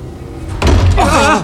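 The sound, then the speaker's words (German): A door slams shut with a loud, sudden thud, followed by a person's voice. “Welche Tür war das?”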